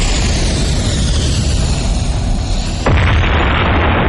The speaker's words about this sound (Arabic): العدو بتراجع للخلف بعد انفجار دباباته.